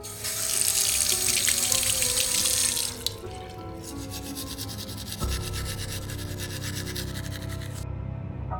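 Teeth being brushed at a bathroom sink: a brisk, rasping scrub for about three seconds, then a steady stream of running tap water. There is no talk.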